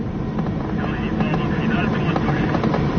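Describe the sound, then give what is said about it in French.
Engine of a 180-horsepower Commodore tow plane roars at full power as it takes off towing a glider. The drone is loud, dense and steady throughout, with no breaks. “Le remorqueur Commodore rampe 2 secondes de plus. L'empennage frétillant, il rougit sous l'effort, puis Rouspéter, rageant de ses 180 chevaux, il lève son nez d'ivrogne et s'accroche dans le ciel.”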